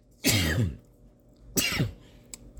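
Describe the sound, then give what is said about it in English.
A person sneezes twice, two sharp, breathy bursts about a second apart, the first longer and stronger, fairly faint overall and with no talk. “live sneeze. I'll take Gesundheit in the comment section.”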